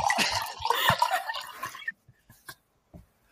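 Wine is poured into a glass right next to the microphone: a splashing, gurgling pour for about two seconds, then a few faint drips and taps before quiet.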